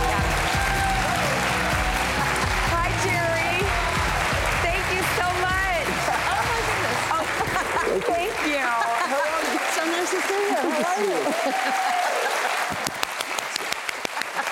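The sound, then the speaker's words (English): A studio audience applauds to welcome the mayor of East Hampton, a long loud wash of clapping with voices speaking over it, thinning out near the end. “Please welcome the mayor of East Hampton, Jerry Larson. The mayor of East Hampton.”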